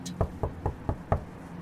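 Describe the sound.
Knocking on the door of a brownstone house: five quick, evenly spaced knocks, dull and moderately loud, with no voices.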